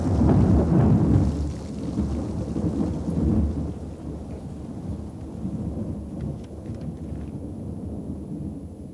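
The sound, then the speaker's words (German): Thunder crashes on a stormy night: a loud, deep rumble bursts at the start and rolls on, fading unevenly, with steady rain hissing beneath throughout. “Prinz Eugen, schmetterte ein Blitz nieder, straßenweit die stürmische Nacht erhellend. Hinter ihm krachte er, als risse er den ganzen Himmel mit sich heran.”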